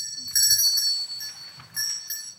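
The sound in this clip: A small hand bell rings in two short jingling bursts separated by a brief pause, giving bright, high metallic tones.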